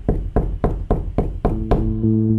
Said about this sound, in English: they got the knock at the door that they'd feared since they arrived.